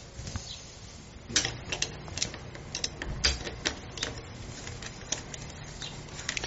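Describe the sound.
A pedal being screwed by hand onto a bicycle crank gives many light, irregular clicks and taps, with a steady low hum underneath.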